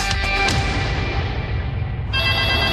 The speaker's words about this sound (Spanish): ¡Contesta tu citófono, po, que estoy ocupada!